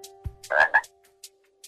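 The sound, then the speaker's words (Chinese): A toad croaks once, a short raspy call split into two quick pulses, followed by a few faint clicks against a low steady hum. “定睛一看，啊，是一只癞蛤蟆。”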